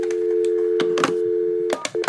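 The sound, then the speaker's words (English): A telephone is dialed to call a health insurance company: a steady dial tone hums, broken by a few short keypad beeps near the end. “Okay, I am about to dial my health insurance company.”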